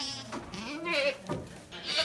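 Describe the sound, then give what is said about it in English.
Around thirty Alpine and Saanen dairy goats bleating in a barn as they grow excited at morning milking: several wavering, nasal bleats in quick succession, some overlapping, at a fairly low level. “The 30 or so Alpine and Sonnen dairy goats, her ladies as she calls them, get quite excited about the morning milking.”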